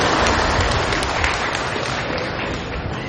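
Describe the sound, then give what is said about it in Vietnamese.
Hand clapping from an audience at a Buddhist dharma talk: a dense, steady wash of many hands clapping at once, holding an even loudness for the whole stretch. “Giỏi, bây giờ tôi vỗ tay mình cho các vị.”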